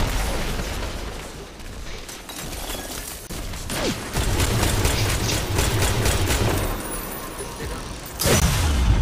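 Gunfire in the video game Destiny 2 during a full-team match: dense, loud bursts of shots and heavy impacts run throughout, with sharp blasts punching through the noise partway along and again near the end.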